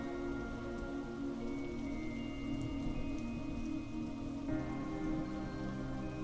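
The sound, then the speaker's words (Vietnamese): Thunderstorm rain falling outside, a dense, even patter and hiss of many drops that holds steady throughout without thunder claps or talking. “Ngoài trời vẫn còn đang mưa giông, những tia chớp lật lè hất qua ô kính”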